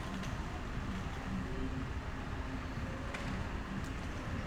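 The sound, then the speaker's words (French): Traffic on a street at night during a lockdown makes a steady, low rumble. It is constant and fairly quiet, and no single car stands out as it passes. “Il y a encore de la vie. Des voitures.”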